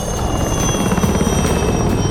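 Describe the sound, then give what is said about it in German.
Loud, steady engine drone of a flying machine taking off at full throttle, used as a drama sound effect: a continuous helicopter-like whirring roar with a thin high whine over it and no voices. “Das Flievertüt ist wieder flugbereit. Tobby und Nunu steigen ein und düsen los. Mit Vollgas geht es nach Tütermoor.”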